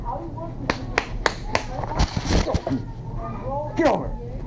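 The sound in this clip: Sharp hand claps from a child who claps when excited or upset: four crisp whacks in quick succession, followed by loud talking voices.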